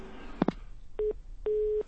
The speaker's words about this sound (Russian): Вот сорвался звонок.